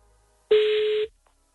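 A telephone tone as a call is placed live: one steady, fairly loud beep lasting about half a second, alone, with a short silence before and after.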